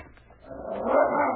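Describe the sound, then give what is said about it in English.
A sled team's lead dog gives a few short, faint yips, then a louder, sustained whining cry that builds and holds to the end. No speech. “That lead dog. He will not let you touch his sled.”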